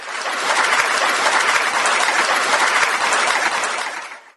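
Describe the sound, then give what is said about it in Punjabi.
Applause on a Punjabi radio programme, played as studio applause: a steady, dense wash of clapping at a moderate level that holds evenly, then fades out at the very end. “ਲਓ ਜੀ, ਇਹ ਸੀ ਤਾੜੀਆਂ ਮੇਰੇ ਲਈ, ਮੇਰੇ ਆਪਣੇ ਲਈ, ਮੇਰੇ ਉਹਨਾਂ ਸਰੋਤਿਆਂ ਲਈ ਜਿਹੜੇ ਘਰੇ ਬੈਠੇ ਨੇ”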